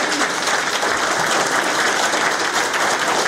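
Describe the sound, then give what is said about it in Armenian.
An audience applauds with steady, dense clapping that stays even and loud throughout, with no voices standing out. “Ուզում եմ ծափարեն եւ ողջունենք”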